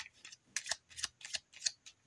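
Gemstone healing cards being shuffled in quick, papery riffles and slaps, with several crisp bursts repeating at a steady pace, fairly quiet throughout.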